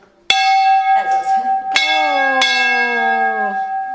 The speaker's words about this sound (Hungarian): Húzzunk harangot!